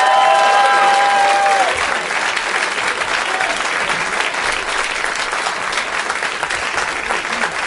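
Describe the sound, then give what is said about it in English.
A live show audience cheers, yells and applauds as guests come out. Loud, steady clapping mixes with shouts and whoops, easing slightly after the first couple of seconds and continuing thickly throughout. “A lot of John Hamm, a lot of people yelling, yeah, John Hamm.”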